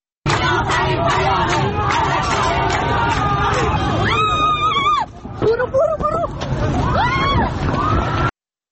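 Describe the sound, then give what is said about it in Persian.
A crowd of protesters in Tehran flees security forces during the protests over Mahsa Amini's death. Many voices babble over hurried movement, and loud shouts or screams rise above the din in the second half. “بله، همطور که شنیدید صدای فرار کردن مردم از دست نیروهای امنیتی بود.”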